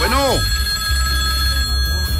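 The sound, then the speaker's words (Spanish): A telephone rings for an incoming call, a short warbling burst right at the start that gives way to steady hiss with a faint high hum. “Bueno, vamos con llamada telefónica, amigo mío, por favor, si es amable.”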